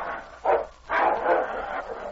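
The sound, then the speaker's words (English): Two dogs, a big dominant dog and a smaller wolf dog, snarling and barking as they fight, in rough overlapping bursts of growls that swell and dip unevenly. “The dogs rolled in the snarling heat.”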